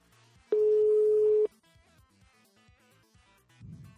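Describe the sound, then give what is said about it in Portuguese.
A single steady electronic telephone tone, heard as a call is dialed, holds for about one second at a constant pitch over faint background noise. “a gente vai fazer uma ligação aqui para o nosso amigo.”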